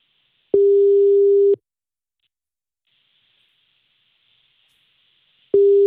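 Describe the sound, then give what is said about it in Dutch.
Ringback tone while a telephone call is placed: a single steady low electronic tone lasting about a second, then several seconds of near silence, then the tone starting again, clean and fairly loud with no talking. “Ja, we gaan nu bellen. We gaan nu je vader bellen.”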